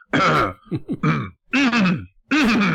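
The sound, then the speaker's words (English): A voice coming from an Alexa smart speaker clears its throat repeatedly, in several rough, guttural bursts separated by short silences, standing alone at moderate volume. “if you miss the first few times that Alexa requests the lunch meat, the Alexa will clear its throat repeatedly.”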